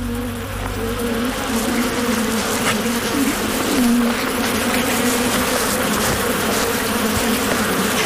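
Bees buzz in a swarm as a honey badger raids their hive, a dense, steady drone that holds unbroken at the same level throughout, with no voices.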